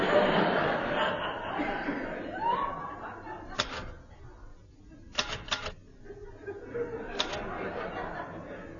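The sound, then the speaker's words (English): Gloved fingers type on keys, producing a few sharp, sparse clicks over a low background. Chuckling laughter is heard near the start. “I like typing in gloves. Lots of people type in gloves.”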